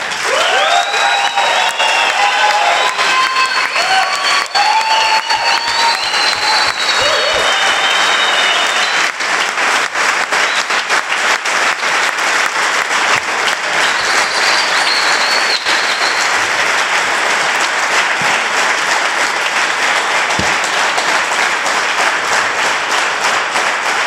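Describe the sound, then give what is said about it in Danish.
Loud, sustained applause from an audience welcoming a guest at an opening game at Sokna 12, a dense, continuous wash of many hands clapping that carries on evenly for the whole stretch. “Så vil jeg godt byde Lars stor velkommen her til åbningsspillet på Sokna 12. Og jeg synes, vi skal give ham en kæmpe hånd.”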